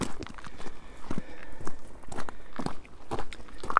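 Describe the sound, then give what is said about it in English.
Footsteps walking along a clifftop path at Leskeith Cliffs, many steady steps crunching in an even rhythm with no voices. “And I'm walking on the top of Leskeith Cliffs.”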